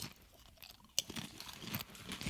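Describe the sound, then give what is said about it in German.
Crunching on a parsnip snack chip: one sharp bite snaps out near the start, followed by quieter chewing crunches that continue, all fairly faint, with no talking. “Ja, komm, ich probiere mal so eine Pastinake.”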